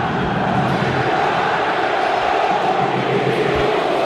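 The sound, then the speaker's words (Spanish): A Racing football crowd at Avellaneda jeers at the final whistle of a 2-0 home loss to Belgrano, a dense, continuous roar of disapproval that holds steady and loud throughout. “El árbitro Falcón Pérez que pita y anuncia al final con la reprobación del público de Racing.”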